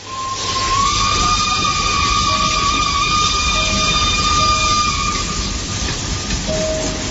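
A train in motion, with a long, steady, high whistle-like tone ringing over a constant loud rumble throughout.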